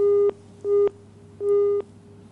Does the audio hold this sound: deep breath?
no